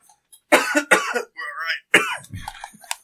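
Someone coughing and sputtering after choking on a drink: a series of sharp, harsh coughs with throat-clearing and a strained voiced catch between them, irregular in rhythm and fairly loud.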